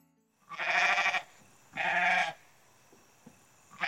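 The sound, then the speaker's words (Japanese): Goats bleat in a grassy vacant lot where six of them stand. Two loud, drawn-out, quavering bleats come about a second apart, followed by near silence and the start of a third call at the end. “ヤギ。そこにヤギがいた。”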